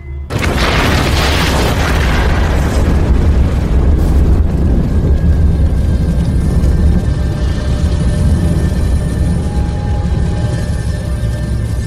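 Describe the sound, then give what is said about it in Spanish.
Dramatized explosion of an RBMK nuclear reactor core: a sudden massive boom opens into a loud, sustained roaring rumble that stays heavy and dense for the full twelve seconds, with no voices. “Así es como explota el núcleo de un reactor RBMK.”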